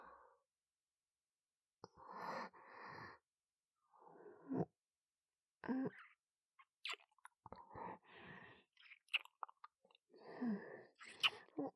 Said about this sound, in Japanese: お目覚めのキスをさせていただきます。